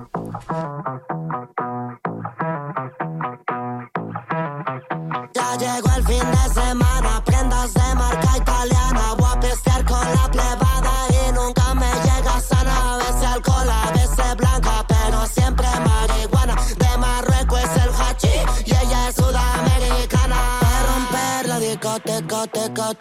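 Dance music track played on air opens with a sparse plucked pattern, then a heavy pulsing bass beat enters around five seconds and drives on loudly and steadily to the end.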